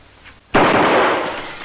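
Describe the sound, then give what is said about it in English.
A gunshot fired through a window during a film scene with police, an abrupt loud report that bursts out of near quiet and trails into a long, noisy roar to the end. “That's when we get the chief of police and the other people coming through the window, and they shoot DeGarmont through the window.”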